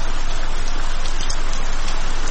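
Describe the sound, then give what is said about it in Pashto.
Heavy rain pouring down in a steady, dense hiss that stays at an even loudness throughout, with no voices. “باران تیز شو، داسې شرشورې شو لکه ناوې چې له اسمانه راخوشې.”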